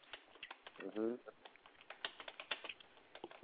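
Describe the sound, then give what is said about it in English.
Faint keyboard typing: many light, irregular clicks in quick bursts, with a brief murmur of a voice near the start. “A lot of typing going on.”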